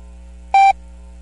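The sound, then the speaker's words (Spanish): A single short, pure electronic beep marks the Ecuadorian official time signal on radio, sounding clear and steady for a fraction of a second over a faint low hum. “Al oír el tono serán las 11 horas.”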